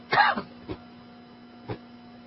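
Throat clearing: one rough, raspy burst at the start, followed by two brief, fainter coughs spaced apart, with quiet in between.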